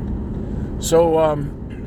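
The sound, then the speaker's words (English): A car engine rumbles low and steadily on a drive to the landfill, with a short voiced sound briefly rising over the motor noise. “I'm actually taking some garbage to the landfill, so excuse the motor noise behind me.”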